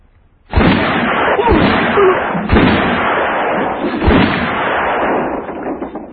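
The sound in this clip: Gunshots ring out: a few sharp, loud cracks spaced roughly a second apart over a continuous rumbling wash of noise, with no voices.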